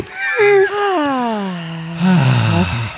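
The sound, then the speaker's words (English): A long voiced exhale, like a drawn-out sigh, glides steadily downward in pitch, then a second, lower groaning breath follows after a short dip, both fairly loud and with no talk. “Nice exhale.”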